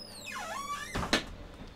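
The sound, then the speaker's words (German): A door is pushed shut with a dull thud and a sharp click just after it. Before that comes a whining tonal sweep that dips in pitch and then rises again. “Okay, dann wir machen die Tür zu.”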